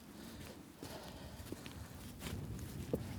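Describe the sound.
Footsteps on an eroded gritstone path of sand and gravel across high Peak District moorland: a steady run of soft crunching steps, fairly faint, with a few sharper scuffs standing out.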